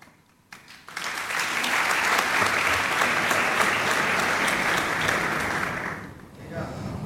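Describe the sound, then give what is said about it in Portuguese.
Audience applause at a live performance: it rises from near silence into full, steady clapping that holds for several seconds, then dies away. “Metade dessas palmas são para o Tiago Torres da Silva.”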